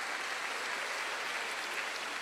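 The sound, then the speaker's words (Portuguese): An audience applauding during a church service, a steady, even wash of many hands clapping with no voices rising above it. “Amados, aplauda o Senhor. Aplauda o Senhor.”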